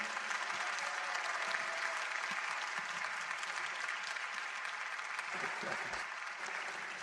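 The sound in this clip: Audience applause welcoming a guest speaker at a Sunday church service, dense, sustained clapping from a large crowd that holds steady throughout and eases off slightly near the end.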